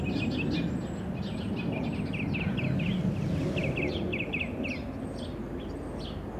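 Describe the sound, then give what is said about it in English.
A song sparrow calling outdoors, with short high chirps in quick repeated clusters, fairly faint over a steady, loud rumbling background noise. “So the song sparrow has a very sparrow, house sparrow style. Oh, that's its calling.”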